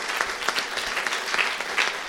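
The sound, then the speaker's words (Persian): Applause at a talk with a teacher present. Many hands clap at a steady, fairly even rate, moderately loud and sustained for the whole stretch. “تشویق میکنم. تشویق.”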